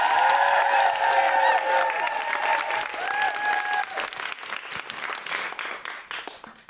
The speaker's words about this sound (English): Please, everyone, make a lot of noise and welcome her to the stage that she's on.